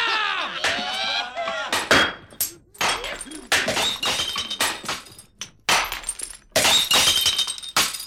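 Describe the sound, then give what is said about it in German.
Glasses smashed one after another as a farewell salute at a party: many loud, bright crashes of breaking glass with ringing shards, coming in quick bursts separated by short gaps. “Den Salut der krachenden Gläser!”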